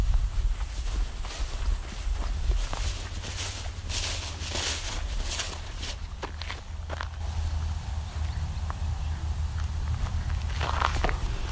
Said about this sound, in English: looking at a wild turkey. And it's running.